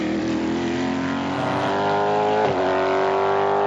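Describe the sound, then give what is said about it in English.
Deep rumble of a Cadillac endurance race car's large-capacity V8 engine at the Sebring 12-hour race at night, a loud, steady harmonic drone that holds throughout with no voices. “the Cadillac number 31, and the undoubted rumble of the large capacity V8 engine out through the darkness,”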